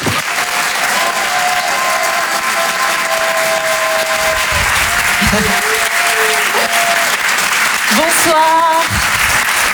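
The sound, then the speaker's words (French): A comedy show audience applauds a performer being welcomed on stage: dense, loud clapping that holds steady for the whole ten seconds. “On va l'encourager et faire un maximum de bruit s'il vous plaît pour Hélène Cilo.”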